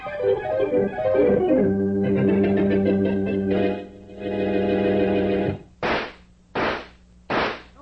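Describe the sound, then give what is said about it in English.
Three loud, sharp gunshots fired into a mattress, evenly spaced, coming right after a stretch of sustained music. “take those bullets I fired out of that mattress”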